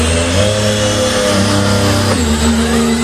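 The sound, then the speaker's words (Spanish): A Ferrari racing car engine revs in a loud, sustained, buzzing whine with strong tonal layers, holding fairly steady and shifting briefly partway through. “Esto es en septiembre, a ver cómo suenan los Ferrari por Madrid.”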